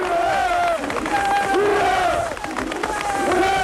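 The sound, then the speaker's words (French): Crowd of Lenin Shipyard workers in Gdańsk cheering their strike leader as he is carried in triumph: loud, sustained massed shouting, with chant-like voices rising and falling in waves. “Oui, Gdansk a fêté son héros. Oui, tous les ouvriers étaient au rendez-vous pour acclamer le chef des grévistes du chantier Lénine.”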